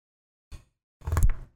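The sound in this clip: A door is shut to keep pets out of the room: a short, light bump is followed by a heavier, longer thud with a brief rattle.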